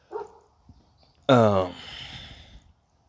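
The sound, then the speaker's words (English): Dogs barking, a short bark followed after a pause by a louder, drawn-out bark that trails off. “And there goes the dogs barking. Don't mind the dogs barking.”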